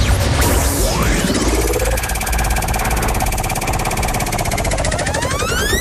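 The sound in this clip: Prize wheel spinning during a radio game: loud, dense whirring with rapid, steady ticking and sweeping tones that run the whole time, with no talk over it.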